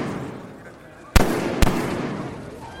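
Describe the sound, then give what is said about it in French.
Gunshots fired at a crowded open-air papal appearance: two sharp, loud bangs about half a second apart, cutting through steady background noise that continues after them. “trois coups de feu et une clameur d'effroi qui s'élève au-dessus de la foule.”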